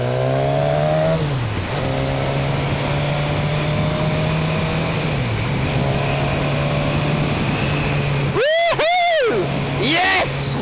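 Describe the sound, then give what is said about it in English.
Engine drone of a Suzuki Katana motorcycle filtering through traffic, a steady mid-low hum that dips in pitch a couple of times, all under a constant rush of wind noise. “I am back and that was a satisfying ride. I like the Katana, top marks from me.”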